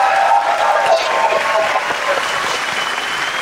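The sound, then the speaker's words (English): Applause and cheering from a live audience at a Baltimore Soundstage live show, a dense, continuous wash of clapping that stays loud and eases only slightly toward the end. “It is a live edition here at the Baltimore Soundstage. I'm Jerry Coleman. He's the former five-time All-Star Adam Jones. We're close to the mics. Chip Franklin back in San Diego. And again, we have a live audience here. Make yourself heard.”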